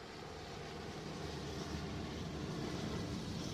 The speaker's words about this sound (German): Soweit das Auge reicht, sieht man russische Hubschrauber. Dicht wie schwarze Heuschreckenschwärme kommen sie auf uns zu.